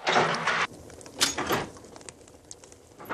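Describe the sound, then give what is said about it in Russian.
The small iron stove's metal door is pulled open with a broad, rasping scrape lasting about half a second, then a couple of softer, shorter grating rubs and a final sharp scrape. “Гальцев открывает дверцу буржуйки.”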